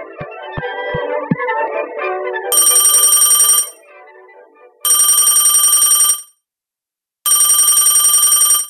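A telephone rings in three loud electronic bursts, each lasting over a second and separated by short pauses, coming in after a stretch of other sound.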